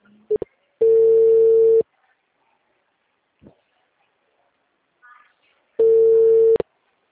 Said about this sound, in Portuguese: Llamada en camino.